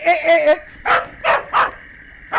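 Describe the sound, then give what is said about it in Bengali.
Dogs bark as they chase a running man: a whiny yelp opens, followed by a few sharp barks spaced unevenly, moderately loud and with no background sound. “কিন্তু যেই আমি দৌড় দিমু, দেখবেন ওরাও ঘেউ ঘেউ করতে করতে আমার পিছে ছুটবো। এই যে দেখেন আমি দৌড়াইতেছি।”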